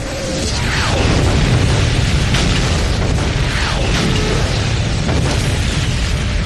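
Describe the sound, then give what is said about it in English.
Artillery creeping barrage explosions form a loud, continuous rumbling roar of overlapping blasts, a dense wall of booming with no single separate bang standing out. “Now the artillery launches a creeping barrage, designed to provide a moving curtain of steel to protect the advancing infantry.”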